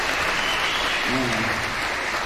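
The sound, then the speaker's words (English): Audience applause, a steady, dense wash of clapping that runs through the whole two seconds, with a brief voice rising over it near the middle. “Yeah, we can give a applause for that.”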